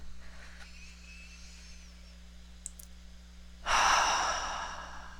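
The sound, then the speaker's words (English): A deep breath is taken during a guided breathing moment. After a quiet stretch with a few faint clicks, a loud, airy exhale starts just past midway and slowly tapers off. “we invite you to just take a deep breath with us now”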